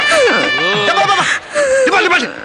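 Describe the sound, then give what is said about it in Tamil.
Someone crying at a wedding home, loud wailing sobs whose pitch wavers up and down, in two long bursts separated by a brief pause. “உண்மையிலே அழுகு சத்தம் கேக்குது.”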